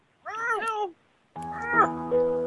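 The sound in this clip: A human voice imitates a cat's meow with two drawn-out mewing calls. The first is shorter and wavering, and the second is longer and steadier, with a brief silence between them.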